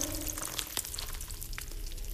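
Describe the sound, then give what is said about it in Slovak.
Pancake batter sizzles in hot oil in a pan, a steady bright crackling frying hiss with a few brief sharper pops, alone and even in loudness. “múku v mlieku rozmiešame, mliečko rýchlo hustne, cesto trochu posolíme, olej rozpálime, za županku nalejeme.”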